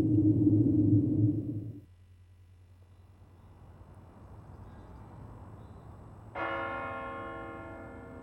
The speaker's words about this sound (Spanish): Empezaron a dar las campanas. Empezaron a tocar campanas de muerto en esa noche tan lúgubre.